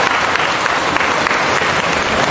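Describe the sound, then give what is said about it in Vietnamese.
Congregation applauding in church for a saint's feast day: a dense, steady roar of many hands clapping, loud and even throughout, with no voices over it. “Một tràng pháo tay nồng nhiệt thưa anh chị em.”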